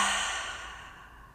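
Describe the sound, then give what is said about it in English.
A big breathy exhale after holding the breath in a guided self-soothing breathing exercise: one long, airy sigh, heard alone, that starts strong and slowly fades over about a second and a half. “Slow and controlled, one more big inhale. Hold at the top this time for four, three, two, one. Big exhale.”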